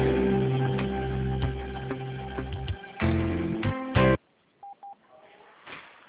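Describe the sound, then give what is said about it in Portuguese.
Telephone dialing tones while a call is being transferred: a dense run of clear, steady phone tones lasts about four seconds, then the line drops to near silence broken by two short beeps. “Aguarde um momento. Estamos transferindo a sua ligação.”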